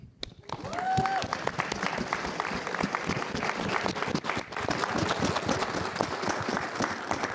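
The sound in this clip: Audience applause at a community talk about AI: many hands clapping in a dense, steady patter that swells in within the first second and carries on at an even level.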